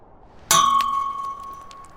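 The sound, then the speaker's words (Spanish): A stone thrown from the ground strikes a bin with a single sharp, bright clang, followed by a clear ringing tone that slowly fades. “toma una piedra del suelo y la arroja contra un tacho.”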